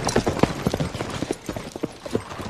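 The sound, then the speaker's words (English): Horses' hooves clip-clop as riders move single file through a gorge. The quick, irregular clops continue steadily throughout. “They rode single file through the gorge”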